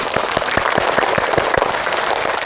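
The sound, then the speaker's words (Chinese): Classroom applause as students congratulate the winning blue team after a game, a dense wash of clapping with distinct, evenly spaced louder claps keeping a steady rhythm throughout. “我们向蓝队同学表示祝贺，”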